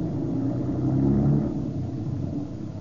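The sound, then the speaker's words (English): A car driving off fast produces a low, steady engine rumble that swells to a peak and then eases back while staying constant. “now drive like you never drove before”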